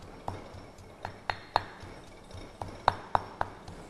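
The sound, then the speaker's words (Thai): A pestle pounds curry paste with turmeric in a mortar for sai ua sausage, making a steady run of sharp, hard knocks at an uneven pace, some ringing brightly. “เครื่องแกงนะคะเราก็จะต้องตำให้ละเอียดไปเลยนะคะโขกให้ละเอียดนะคะ”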